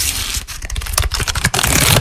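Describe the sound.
Crisp crackling and rustling of collectible trading cards and their packs, a dense run of loud, rapid crinkles and clicks with no voices.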